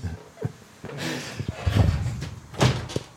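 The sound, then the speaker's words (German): A door being slammed shut in an amateur radio-play skit, heard as a few dull thumps and rattling knocks, with the heaviest impacts near the middle and toward the end. “Er wollte die Tür zuschlagen, ja.”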